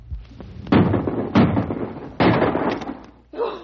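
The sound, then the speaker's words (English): Three rifle shots fired at a charging grizzly bear, each a sharp, loud crack with a quickly decaying tail, spaced unevenly, followed by a short burst of voice at the end. “Empty your rifle right into it.”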